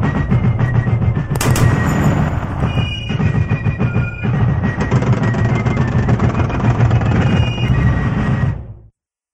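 A Warthog vehicle's mounted gun in a video game fires in rapid, sustained bursts with a loud, rattling machine-gun roar and a low mechanical drone beneath, ending in an abrupt cutoff.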